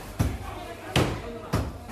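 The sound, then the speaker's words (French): Meat cleavers chop in a basement of a Beijing market, striking three heavy, sharp blows spaced a little over half a second apart, with voices talking in the background. “Au sous-sol, les hachoirs débouchés couvrent la voie de la marchande de légumes.”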